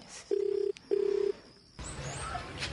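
A telephone tone sounds as a call is placed: two steady buzzing bursts separated by a short gap, followed by softer background noise.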